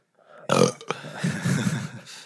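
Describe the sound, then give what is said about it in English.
A loud, drawn-out burp, rumbling and throaty, opening with a forceful burst, briefly catching, then continuing as a long, uneven belch. “Yeah, your burps have been pretty weak.”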